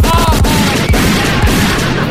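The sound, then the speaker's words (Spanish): A burst of gunfire sound effect, loud and dense. Rapid sharp cracks and low booms run together into a rough, rumbling volley that stays strong throughout. “Deme una ráfaga de balazo. Póngale.”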